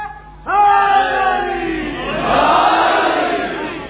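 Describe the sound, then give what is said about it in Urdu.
A crowd chants a religious slogan in unison: one long shouted call rings out, then many voices roar a loud, massed reply together. “حیدری سارے مل کے مل کے، یوں نہیں، بکھرا ہوا نعرہ نہیں چاہیے،”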